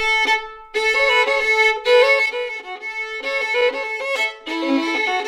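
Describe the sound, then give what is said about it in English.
An old-time fiddle plays the original melody of a square dance breakdown, with bright bowed notes in steady, evenly phrased runs. It is loud and fills the whole clip alone, with no voices. “Square dances consist of an original melody. In this case, that sounds like this.”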